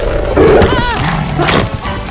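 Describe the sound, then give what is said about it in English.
A dog snapping and barking: a few harsh, loud snarling bursts break through a dense, busy background of overlapping noise. “A dog snaps at him.”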